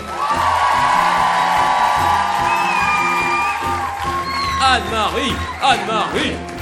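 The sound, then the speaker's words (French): An audience gives an ovation with cheering and whoops as a member of the video crew is called onto the stage. Shouts and rising, falling whoops stand out over a steady crowd roar, growing more lively toward the end. “Et alors, j'aimerais qu'on fasse une ovation, parce qu'elle va sans doute venir sur scène.”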